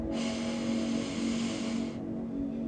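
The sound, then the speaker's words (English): Slow, deep inhalation during a guided breathing exercise: a steady, airy, breathy hiss lasting about two seconds, then stopping abruptly, over a constant low hum. “Take a few deep breaths in this energy of love and acceptance that you have cultivated for yourself. Breathe in.”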